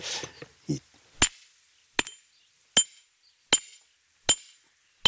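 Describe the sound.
Six sharp, ringing hammer blows strike a hard piece of stone that will not break at a Roman mosaic excavation site. They are evenly spaced, about one every three-quarters of a second, after brief voices at the start.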